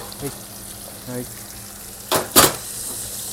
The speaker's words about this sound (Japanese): はい、ちょっと玉ねぎ入れますね。玉ねぎを入れます。